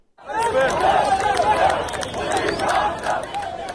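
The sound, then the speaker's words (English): An anti-government protest crowd in the streets of Cairo, with many voices shouting and chanting together in a loud, continuous roar that barely dips for nearly four seconds. “Because that is the sound of the streets of Cairo, where anti-government protests have been taking place in recent days.”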